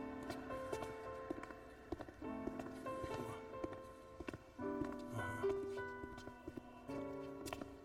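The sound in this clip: Footsteps of two people walking along a long corridor: a steady run of many hard, clopping steps in an even rhythm that carries on throughout.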